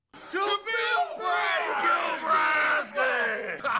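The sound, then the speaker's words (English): A crowd cheers for a baseball player reaching the major leagues, with loud yells and whoops rising in bursts that swell and hold before a brief dip and another surge. “that's right, cheers.”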